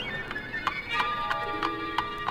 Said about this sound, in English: She's riding in a horse car with a man from Cork.